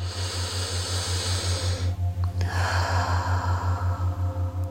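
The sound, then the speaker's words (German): A deep breath drawn in and then let out, soft hissing airflow with a short pause between the two, over a low steady pulsing hum. “bevor du dann einen weiteren tiefen Atemzug nimmst”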